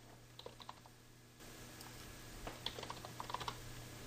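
Faint typing on a computer keyboard: light keystroke clicks come in two short scattered bursts over a steady low background hum.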